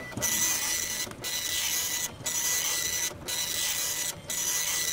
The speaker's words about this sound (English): I shall print a copy for your records.